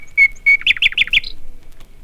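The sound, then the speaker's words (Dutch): Bird song from a small, plain grey songbird, heard on a vinyl fairy-tale record. Two clear whistled notes are followed by a quick run of four brighter, higher chirps and a short final note, loud and alone. “Het is een heel eenvoudige vogel. Maar zingen dat hij kan. Oh, stil. Daar begint hij weer.”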